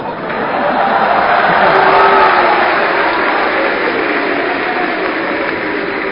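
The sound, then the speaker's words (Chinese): Audience applause at a live stage performance in Jinan: a dense, steady wash of clapping that holds at an even, loud level and eases slightly toward the end. “再一次谢谢大家给我的掌声。”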